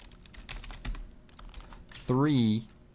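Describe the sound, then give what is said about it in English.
Typing on a computer keyboard, a run of quick, light key clicks, with a voice speaking briefly near the end. “So alt-click, and we're going to type wiggle”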